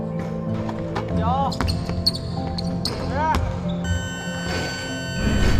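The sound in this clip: Basketballs bounce during a team's timed, high-intensity shooting drill with players split into four groups, making many sharp thuds mixed with a few high squeaks while people talk throughout.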